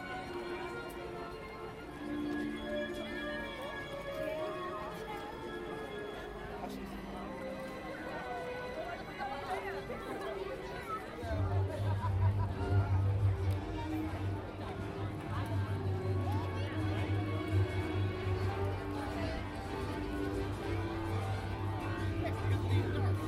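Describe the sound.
Crowd chatter at a theme park, passing the Star Wars stage: a continuous murmur of many voices, with a low rumble joining partway through.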